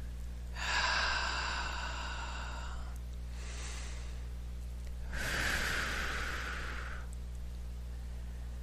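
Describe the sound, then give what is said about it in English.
Deep breathing in a guided relaxation session: two long, loud breathy rushes of air with a fainter, shorter breath between them, over a low steady hum. “Deep breath, please.”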